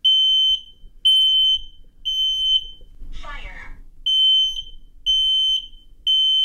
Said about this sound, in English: That's a smoke alarm in my house. After my son presses a button to test it.